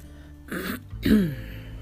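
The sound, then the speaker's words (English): A person coughs and clears their throat in two short, rough bursts, the second slightly stronger and lower, with quiet between them. “I can feel something in my throat. That's what's making me cough.”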